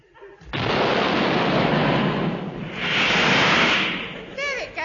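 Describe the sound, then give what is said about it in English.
A rocket ship blasts off after its fuse is lit, a loud, sustained roar that rushes in suddenly, holds for about four seconds, swells once more, then fades. “I stand on the deck and light the rocket fuse so.”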